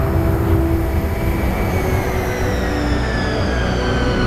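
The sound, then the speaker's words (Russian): A silver airplane climbing rapidly makes a continuous, loud, broad roar. Faint whining tones inside it slowly drift lower in pitch, and no voices are heard. “Серебристый самолет стремительно набирает высоту.”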